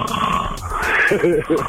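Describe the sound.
A man imitates a truck driver's snoring with his voice, giving a short run of rough, growling, snort-like breaths that turn into a few throaty pulses near the end.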